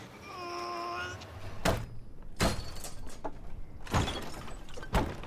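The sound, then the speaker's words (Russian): A shed door creaks open with a drawn-out, wavering squeal, then several loud wooden thuds and knocks follow at uneven intervals. “Андрей открывает дверь сарая.”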